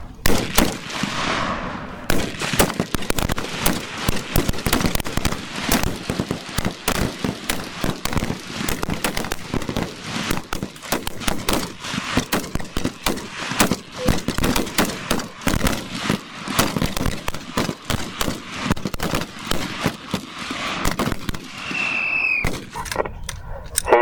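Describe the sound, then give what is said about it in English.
Rifle gunfire at a shooting range: many sharp, loud shots crack in dense, irregular, overlapping bursts, keeping up an almost unbroken barrage from start to finish. “Watch and shoot. Watch and shoot. Fire.”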